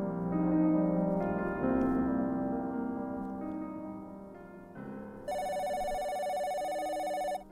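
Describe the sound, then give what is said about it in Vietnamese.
Telephone ringing at a cooking-gas shop, heard as a steady electronic ring with bright, even tones that grow loudest and sharpest over the last couple of seconds. “chuông điện thoại ở cửa hàng ga vang lên”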